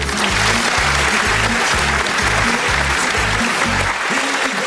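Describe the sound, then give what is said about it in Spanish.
Studio audience applause welcoming a guest onto a show: loud, dense, continuous clapping over a pulsing low beat. “Vamos a recibir con un gran aplauso a Juan Montiel.”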